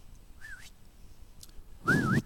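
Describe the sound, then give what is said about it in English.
A man whistles during a sermon: a faint short note first, then after a pause a louder, wavering whistle that glides upward in pitch. “I don't know if he whistled first.”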